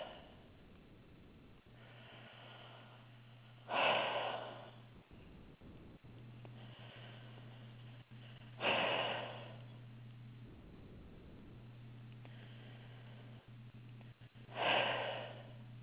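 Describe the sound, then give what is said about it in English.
Slow, deliberate breathing in and out through the mouth: a few airy, rushing breaths spaced several seconds apart, each rising and fading gently over a steady low hum, with no talking. “I want you to breathe in and out of your mouth nice and slow 2 times. So in and out. Do that 2 times.”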